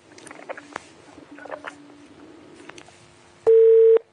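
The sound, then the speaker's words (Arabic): A single loud, steady telephone beep sounds after a phone call is cut off. It is preceded by faint clicks and crackle on the line, then ends abruptly. “قطع الاتصال، انقطع.”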